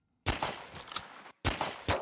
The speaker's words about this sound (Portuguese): Este som de armas a disparar é do Roblox.